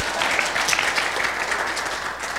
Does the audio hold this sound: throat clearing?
no